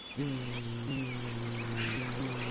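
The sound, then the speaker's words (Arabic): A bee buzzing as it flies, used as a sound effect in a children's story: a steady, low, harmonic drone with slight wavering that starts abruptly and continues almost unbroken for over two seconds. “راحت النحلة تطير أمامه والدب الصغير يمشي وراءها.”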